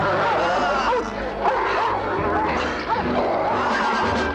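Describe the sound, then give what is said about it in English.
A small dog yaps and barks sharply while attacking a man, the high, rapid barks repeated many times through a dense, noisy scuffle with voices mixed in. “Oh, she let her dog ran out and is now attacking the guy, I think.”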